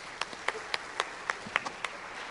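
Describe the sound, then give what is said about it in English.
Audience clapping welcomes a speaker to the stage, faint, with sparse distinct claps landing in a fairly regular rhythm. “So it's our pleasure to welcome John Gordon to the stage. Let's give him a hand.”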